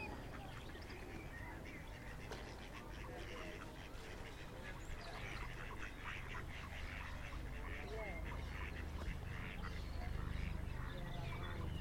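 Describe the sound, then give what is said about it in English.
A little duckling quacks in a string of many short, nasal calls that run steadily throughout and grow slightly louder toward the end, with faint voices murmuring underneath. “Oh, a little duckling coming.”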